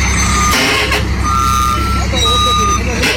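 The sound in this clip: A truck with a tarp cover reverses, its backup alarm sounding steady high beeps in bursts over a low engine rumble while people call out directions.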